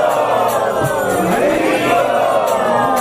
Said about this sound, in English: So we'd like to welcome them by chanting very loudly three Hari Bols.